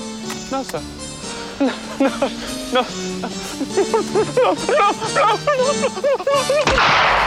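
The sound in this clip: A single gunshot in a war film scene where a man is shot in the back of the head, a sharp loud blast at the very end following spoken dialogue.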